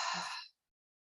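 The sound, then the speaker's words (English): A short breathy exhale through the mouth during a guided breathing exercise: a soft, airy rush of about half a second that fades into silence. “Take an inhale through your nose. Exhale through your mouth.”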